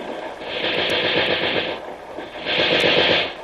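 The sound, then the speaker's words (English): Machine-gun fire in short bursts, a dense, rapid rattle that holds loud and steady through two long stretches with a brief dip between them, with no voices. “Just a couple of short bursts. When another gun is shooting, cover up our sound.”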